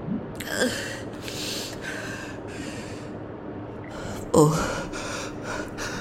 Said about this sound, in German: Atmen Sie ruhig. Einatmen, ausatmen.